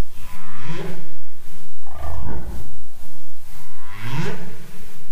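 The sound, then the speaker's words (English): A single male humpback whale sings in late November in Seymour Canal off Admiralty Island, with loud, overlapping low moans and swooping tones that rise and fall in pitch without pause. “This is the sound of a single male humpback singing in late November in Seymour Canal off Admiralty Island.”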